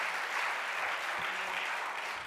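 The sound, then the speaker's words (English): Hand-clap applause from a church audience after a sermon, a soft, steady patter of many hands at even loudness throughout. “Let's give him a hand clap. Thank you, Jesus.”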